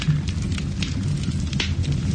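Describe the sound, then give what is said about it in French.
Wood logs burning in a fireplace crackle with many sharp, irregular pops and snaps over a low, continuous rumble of fire. “C'est les cheminées des Ardèches, hein, quand même.”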